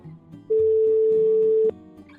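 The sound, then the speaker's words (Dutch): A phone call placed to a reporter traveling in France, heard as one steady, mid-pitched ringback tone lasting a little over a second and clearly louder than the soft background around it. “Laten we even met hem gaan bellen.”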